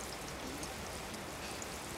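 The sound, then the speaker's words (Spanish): Rain falls in a soft, even hiss of countless drops, faint and unchanging throughout, with no voices. “Con su permiso, nos quedaremos hasta que deje de llover.”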